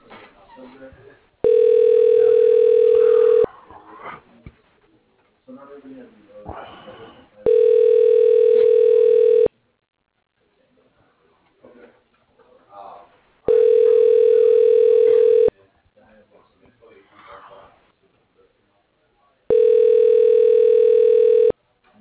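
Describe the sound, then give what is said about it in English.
Four long, steady ringing tones sound at even intervals as a call goes through an employee directory phone system. A voice speaks in the gaps between the tones. “Dialing.”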